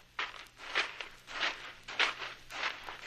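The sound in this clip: Footsteps follow a trail of fresh moccasin prints, a steady series of soft, evenly spaced footfalls with a slightly crunchy texture, heard alone without talk.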